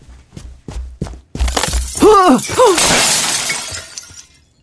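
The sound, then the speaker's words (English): A light fixture falls and crashes with loud shattering glass, preceded by a few soft footsteps, then a burst of breaking and ringing fragments that tails off into scattered tinkling before quiet returns. “That light thing would have landed right on my head.”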